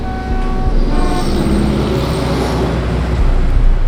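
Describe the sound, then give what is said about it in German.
Loud, continuous city street traffic with a steady roar of passing vehicles and sustained car horn tones sounding through the first half, the din running unbroken to the end with no voices. “Vor mir lärmen Autos, hupen, quietschen, stoßen stinkende Wolken aus.”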